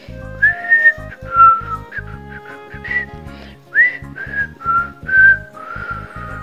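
Someone whistles a cheerful, bouncy tune in clear, bright notes that step up and down, over a soft rhythmic low accompaniment.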